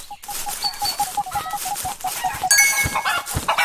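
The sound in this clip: Video game chicken clucking in a rapid, even string of short, clipped notes that keeps going throughout, with other busy game sounds alongside.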